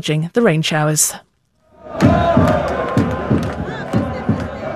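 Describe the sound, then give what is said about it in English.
Iraq football fans celebrate at the Philadelphia stadium after a long, storm-delayed World Cup match lost to France. A brief spoken line and a pause come first, then loud crowd chanting with rhythmic shouted pulses. “That is the sound of Iraq fans celebrating, even though they lost to France, and even though it was a very long night.”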